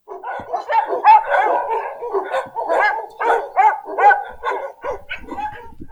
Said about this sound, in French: Le premier, c'était les chiens aux abois.